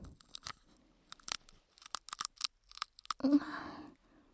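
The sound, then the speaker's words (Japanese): Hard peanut shells crack as they are peeled by hand: a few sharp, dry snaps and crunches in an irregular rhythm, then a denser crunching burst near the end. “ピーナッツの皮って硬いんだね。 そう、結構硬い。今普通に剥いてるけど、上手になると綺麗に剥けるよね。”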